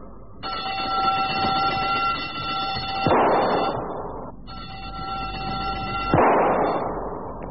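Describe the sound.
Two gunshots fired at shooting-range targets, each preceded by a steady harmonic buzzer tone lasting a few seconds and each landing as a sharp crack with a noisy, decaying tail.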